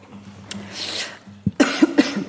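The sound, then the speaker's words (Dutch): Harsh coughing from someone who has just choked on something, several sharp, loud bursts packed closely together in a short fit. “Ik ben niet in een emotie, maar in een verslikking.”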